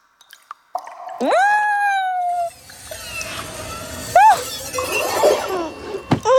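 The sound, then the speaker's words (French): Water drips and trickles down wet, slippery cave rock, with bright plinking drops that ring with sliding tones over a faint watery wash. “Les parois de la grotte ruissellent. La roche est mouillée.”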